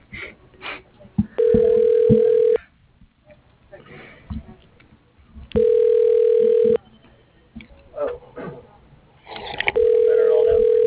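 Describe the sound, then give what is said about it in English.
A telephone ringback tone sounds as a call is transferred from an automated directory to a person's extension. There are three steady, evenly spaced rings, each about a second long, with quieter noises between them. “For your call is being transferred.”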